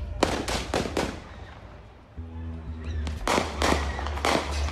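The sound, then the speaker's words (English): Gunshots ring out on a news video near the parking lot of an auto service shop. Sharp cracks come in two quick clusters: a fast run of shots, a short lull, then another volley. “Moments later, shots ring out.”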